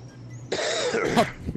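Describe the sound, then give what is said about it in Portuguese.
A person lets out one harsh, rasping cough that bursts after a moment of quiet and rattles on for about a second, with a rough, throat-clearing quality. “Ó a tossida.”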